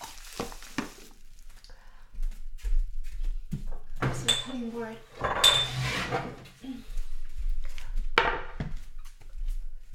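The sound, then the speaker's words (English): A crinkly bag is handled while cooking, giving irregular crackling bursts at moderate loudness. Clinks of kitchenware are mixed in. “This isn't in stereo, but I guess in the future I could look at ASMR cooking stuff. This crinkly bag.”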